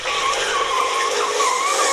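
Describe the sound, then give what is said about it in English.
Tires squeal and skid as a friend's Mazda MX-5 does donuts in a car park, a loud, continuous, wavering screech that holds steady for the whole clip. “That's just some doing some donuts and things in a friend's MX5 when we were at a car park.”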